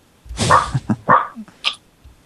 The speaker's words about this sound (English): That sounds like barking off of a video game or something.